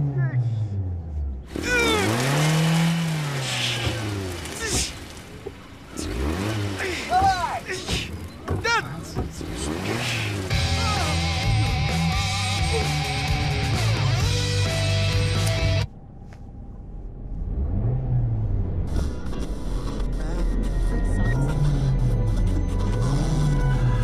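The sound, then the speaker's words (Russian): A stuck car's engine revs as it tries to drive out, rising and falling repeatedly with a few thumps and quieter stretches between. Voices talk over it throughout. “Машина застряла и не может выехать. Чё, газуй, чё!”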